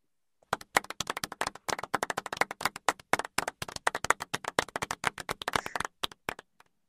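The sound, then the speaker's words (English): Quiet, polite golf clap: a steady patter of many light, soft hand claps that runs for several seconds and then thins out, with no voices. “I'll take the golf clap with my next pick.”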